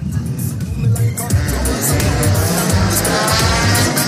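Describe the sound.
A race car pulls away and drives off again during a motor race, its engine giving a loud, steady droning roar with low rumbling tones throughout.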